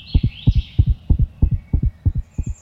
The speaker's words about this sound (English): For example, chipmunks have a normal heartbeat of 350 beats per minute